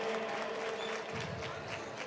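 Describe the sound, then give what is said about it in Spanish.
An audience applauds during a pregón, a short, dense wash of many hands clapping together, steady and faint. “Fuerte aplauso para ellos, hombre.”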